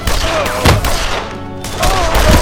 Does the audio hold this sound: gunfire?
yes